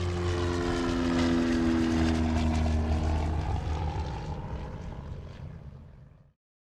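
Propeller airplane taking off, a steady loud engine roar with a droning hum that holds for several seconds, then gradually fades toward the end.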